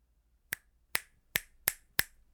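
Five crisp finger snaps ring out alone, evenly spaced at a moderate, steady rhythm, each one a sharp, bright click.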